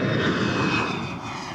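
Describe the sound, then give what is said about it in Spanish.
A steady, droning roar of an airplane engine in flight, a broad continuous rumble holding nearly constant in loudness throughout, with no voices. “Se quedó observando unos minutos al avión que se perdía entre las nubes.”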